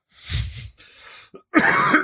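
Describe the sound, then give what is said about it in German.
Coughing from a sick person: a harsh low burst, then a softer raspy stretch, and after a short pause a louder, rougher outburst to the end. “Kannst du bitte aufhören zu husten hier im Podcast?”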